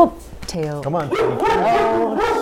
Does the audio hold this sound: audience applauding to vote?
no

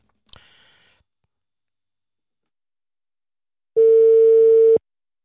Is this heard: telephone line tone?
yes

